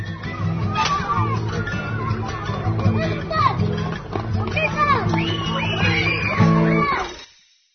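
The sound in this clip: Children play during school recess, a busy wash of overlapping shouts, calls and chatter that runs continuously before fading out at the end.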